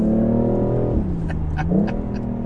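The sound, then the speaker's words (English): Ford Mustang engine revving outside, a loud continuous rumbling tone whose pitch drops, holds low, then climbs back up. “We're teasing a Mustang. The Mustang, no, he doesn't know what gear he's in.”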